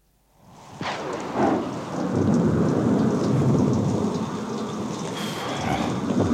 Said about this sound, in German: Puh, der Regen ist heiß, der Sand fast glühend.